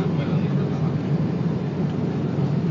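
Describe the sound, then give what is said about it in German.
Low, steady engine drone of a passenger plane slowing on its landing approach to Malé in the Maldives with the landing gear extended, a continuous rumbling roar at an even, loud level. “Das dauert keine fünf Minuten mehr, bis wir wieder gelandet sind. Flieger bremst deutlich ab.”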